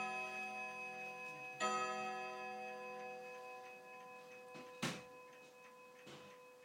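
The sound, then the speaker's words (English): A chiming clock rings a struck tone that slowly fades. A few sharp mechanical clicks follow in the pause between chimes, all fairly faint. “Love this clock. But I don't know why it clicks like that in between the chimes.”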